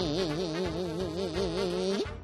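A dung fly buzzes in a steady droning hum with a wavering pitch. It lasts about two seconds, then bends briefly upward and cuts off.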